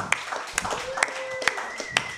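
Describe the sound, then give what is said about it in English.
Audience clapping for a man at a comedy show comes as a few evenly spaced, sharp claps under continuous talk. “Yeah, you can go ahead and clap for Bill.”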